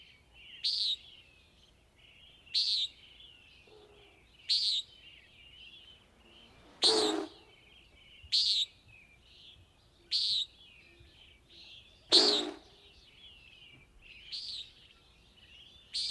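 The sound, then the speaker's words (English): Bird calls repeat in a regular series of short, high, sharp notes roughly every two seconds, two of them louder and harsher than the rest, with no voices between them. “This is a bird. It has a very interesting approach to sound”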